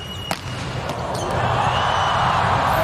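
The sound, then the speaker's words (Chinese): A volleyball serve strikes the ball in a final match between Poland and the USA, one sharp slap near the start over a steady crowd roar that swells and grows louder. “哈内斯发球直接得分”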